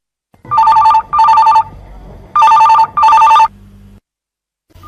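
A telephone rings in two double bursts, four loud electronic trills in all with a short gap between the pairs, followed by a brief low hum.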